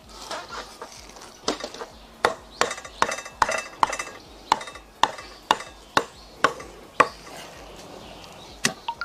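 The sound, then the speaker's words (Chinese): Knife chopping food into small pieces on a board, many sharp, crisp chops in a quick, slightly uneven rhythm, moderately loud with no voices. “切成小块块，”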